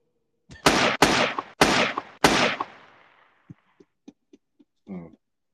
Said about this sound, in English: Go ahead and shoot the club up.